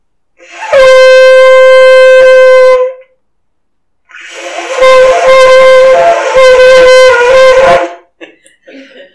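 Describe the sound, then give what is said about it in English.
A ram's horn shofar sounds two loud, brassy blasts. The first is short and steady. After a pause, the second runs longer with slight wavering and ends in a few faint sputters. “He knows how to do it, so I'm going to ask him to blow that in case you've never heard one. So you'll know what the ram's horn sounded like.”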